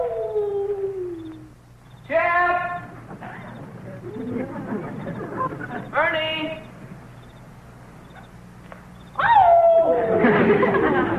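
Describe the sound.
Dog howling, with a few drawn-out pitched cries spread through the scene, the last one loud and sliding downward, mixed with voices and other noise.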